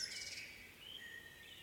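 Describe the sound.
Birds chirp faintly in a natural setting, with a few soft, high twitters over a quiet background hiss.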